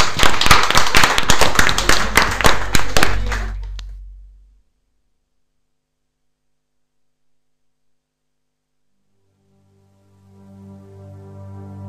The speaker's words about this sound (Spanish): Así que un aplauso para ellas, por supuesto.